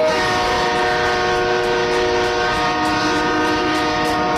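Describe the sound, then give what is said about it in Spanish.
A John Deere tractor horn blares in one steady, loud, sustained blast that holds without a break for the whole stretch, with a rich, buzzy tone and no voices over it. “Pero mirá el bocinazo del John Deere”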